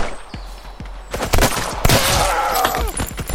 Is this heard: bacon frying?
no